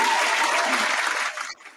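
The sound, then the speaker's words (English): Audience applause at the start of a sports game segment about playoff matchups: a dense, steady wash of clapping that stays loud before thinning and fading out near the end. “round of applause”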